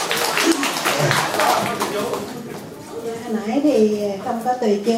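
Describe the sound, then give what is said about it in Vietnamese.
Audience clapping at a retreat. A dense patter of many hands fills the first couple of seconds, and then a person talks over fading claps. “Muốn nghe lại rồi, vỗ tay ra nữa, one more time.”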